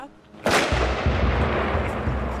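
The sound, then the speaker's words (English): Gunshots ringing out close by in an armed conflict: a sudden loud blast followed by a dense, rumbling wash of sustained noise with a few further low thumps. “She looks over her shoulder as someone speaks to her, then takes cover behind a wall when shots ring out.”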